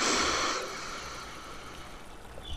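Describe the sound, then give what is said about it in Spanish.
A deep inhalation taken during a guided breathing exercise, heard as a soft, breathy rush of air that is strongest at the start, then fades to a faint hush. “Inhalando por última vez.”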